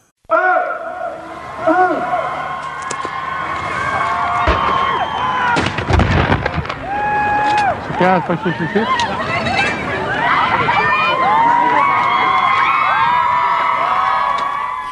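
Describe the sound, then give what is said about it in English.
Gun salutes and crowd cheering at a commemorative ceremony at Vimy Ridge marking the battle's 100th anniversary: several loud booming blasts cluster in the middle, set within continuous loud cheering and crowd noise. “That is the sound of gun salutes as well as cheering that took place at the ceremony today in Vimy Ridge.”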